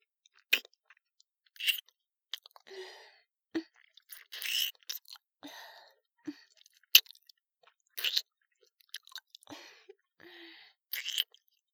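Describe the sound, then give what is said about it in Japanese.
Wet mouth sucking and licking sounds, a series of short smacking and slurping bursts separated by brief pauses, soft and close, with no talking. “舌で舐めていきます。まずはこちらの乳首を、チューチューと吸っていきますね。”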